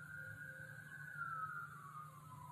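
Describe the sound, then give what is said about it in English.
A faint siren wails outside, holding a single steady tone that slowly slides lower over a low background hum. “these sirens getting on my nerves, y'all. I almost want to redo this”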